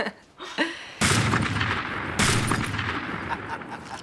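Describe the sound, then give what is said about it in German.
Two gunshots in a shootout between men, a double shot: two sharp, loud blasts about a second apart, each followed by a long booming decay, preceded by faint clicks and rustling. “Es geht doch nichts über eine gepflegte Schießerei unter Männern, nicht wahr? Eine Doublette.”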